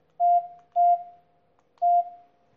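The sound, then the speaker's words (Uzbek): Telephone beeps as a call is dialed to a car dealership: three short, clear mid-pitched tones, each fading quickly, the last arriving after a slightly longer pause, with no talking. “Telefon qilaylikchi.”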